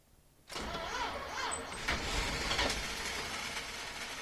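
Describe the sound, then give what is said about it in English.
A car engine cranks as it tries to start: after a brief quiet moment the starter kicks in abruptly and churns steadily at a fairly loud level, with a rough, uneven tone that continues for several seconds without clearly catching. “So if I start the turning over process and then hit the gas, I think it'll start up. It might be a little rough, but it will start.”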